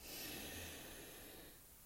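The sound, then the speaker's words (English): A deep inhale through the nose during a guided breathing exercise: one long, soft rush of air, faint and even, easing slightly near the end. “So let's take a deep breath together through our nose.”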